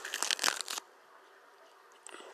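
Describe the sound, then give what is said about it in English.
Crunching on a bite of lettuce: a quiet burst of several crisp crunches, a short pause, then one more brief crunch at the end. “That piece tasted sweet. I hate, like, when the lettuce is sweet.”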